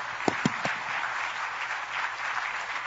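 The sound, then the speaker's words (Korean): Audience applause in a church service welcomes a pastor to the pulpit. A few sharp, distinct claps come first, then they merge into a sustained, even round of clapping that carries on to the end. “우리 박수로 환영해 주시기 바랍니다. Let's go and welcome him together.”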